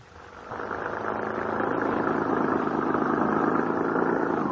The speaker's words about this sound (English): How much farther do we have to drive into the wilds, young man?